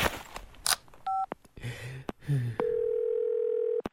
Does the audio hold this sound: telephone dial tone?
yes